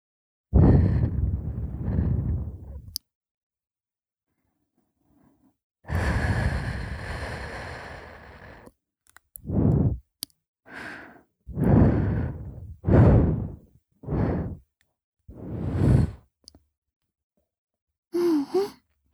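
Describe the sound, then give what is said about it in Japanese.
Soft, breathy puffs of air blown onto an earlobe during ear cleaning, a few long drawn-out blows followed by several shorter ones. The puffs come irregularly, separated by moments of silence. “じゃあ、耳たぶをふうふうしてあげるから、今度はちゃんと気持ちよくなろうね。”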